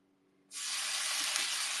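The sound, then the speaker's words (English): Water hits a hot pan and sets off a loud, steady sizzling hiss. The hiss starts abruptly after a moment of quiet and holds evenly to the end. “Here, let me just cool this pan down.”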